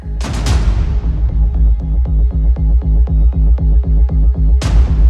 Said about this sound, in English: every kind of shot that comes along has a kind of hit alongside it. And because it's a pulse, I imagine that that's just a kind of boom, boom, boom, boom pulse that's going